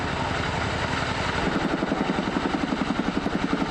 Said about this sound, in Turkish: bir kere de 10 tona kadar su atabilen CH-47 Chinook tipi helikopter de yangın söndürmek için desteğe geldi. Nokta atışıyla sularını bırakan helikopter